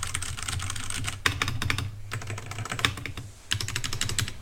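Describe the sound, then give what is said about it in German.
Someone types on a computer keyboard in a fast, continuous stream of crisp key clicks. The typing is broken by a couple of brief pauses and plays alone without talk. “Und jetzt tippe ich noch mal so ein bisschen rum.”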